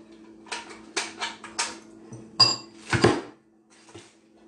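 Pans clattering in a kitchen while a Trinidadian black cake is being prepared, with several sharp metallic clanks and knocks in uneven bursts and short quiet gaps between them.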